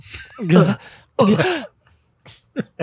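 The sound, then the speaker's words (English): A video game hero gasps for breath in strained, guttural vocal bursts: two long rasping gasps followed by a few short breathy catches. “That's also a Link when he's trying to get breath.”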